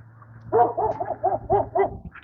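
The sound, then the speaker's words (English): Dog barking in six quick, bright, harmonic barks at a steady rhythm, with a low steady hum underneath and no talk. “Barking dogs. Oh, Jesus, barking dogs.”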